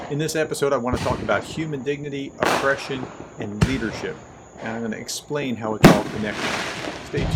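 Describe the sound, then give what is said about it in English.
Fourth of July fireworks in a neighborhood: a few sharp bangs and pops at irregular intervals beneath a person speaking steadily. “hear that? That's a sound of freedom. Those are 4th of July fireworks in my neighborhood.”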